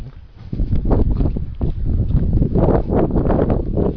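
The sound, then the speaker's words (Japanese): Wind blowing outdoors at night during rain, a steady, loud rumbling gust noise that buffets the microphone in uneven surges throughout, with no voices. “今風が吹いていてですね、雨が降ってます。”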